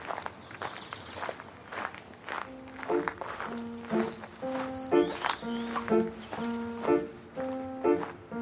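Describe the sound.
Footsteps of a person walking alone, soft and steady in an even rhythm throughout, with a repeating melodic tune of plucked notes entering partway through and continuing beneath the steps.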